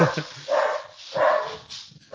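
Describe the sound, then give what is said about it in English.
Dogs barking in a few drawn-out, fairly loud bursts spaced unevenly, with no clear talk over them. “There goes the dogs. There's the dogs.”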